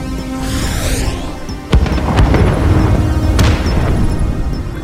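A missile explosion in a space video game, with a sharp, loud blast cutting in partway through a constant, roaring rumble of ship and combat noise.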